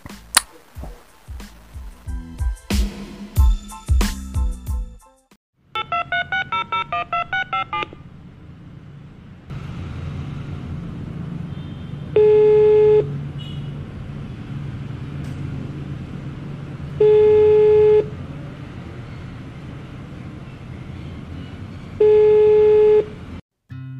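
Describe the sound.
A telephone call being dialed. A rapid run of keypad tones is followed by three long, evenly spaced ringing tones over a low, steady rumble.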